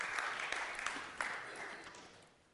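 Faint, dense applause from a church audience, a soft continuous wash of many claps that gradually thins and fades toward the end.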